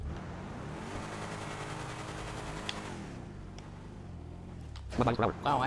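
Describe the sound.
A video game car engine drones steadily as it drives, a humming tone whose pitch shifts slightly, before a voice breaks in near the end.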